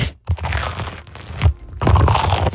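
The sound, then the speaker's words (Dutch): Loud crunching and crumpling as a microphone bumps into a cheese sandwich during eating: rough, crackling bursts broken by a few short gaps, with no talk over them. “Sorry. Mijn microfoon ging in mijn broodje.”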